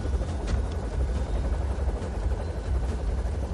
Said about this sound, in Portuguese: Como é que o cara não derrubou o helicóptero ainda?